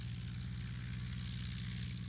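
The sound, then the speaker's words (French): A Potez 25 propeller biplane drones steadily in flight, its engine giving a continuous low, even hum with a rough buzzing overtone and no change in pitch. “Grâce aux qualités de vol de ce bel avion qu'est le Potez 25, il ne m'est jamais rien arrivé.”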